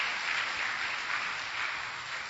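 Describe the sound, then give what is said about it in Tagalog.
A church audience applauds in praise of the Lord during a sermon, a dense, even wash of many hands clapping at once. The applause stays steady and fairly soft throughout. “Pwede mong palakpakan natin ng Panginoon sa Kanyang kabutihan?”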